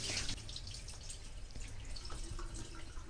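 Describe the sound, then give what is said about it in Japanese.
Rinse water poured over rice in a bowl for a first wash, then drained off, giving a steady, faint trickling and splashing with a slightly louder burst at the start. “お米の入ったボウルに注いで、まず1回目はあまり触らずにお米にひたひたの量のお水を注いでお水を捨てます。”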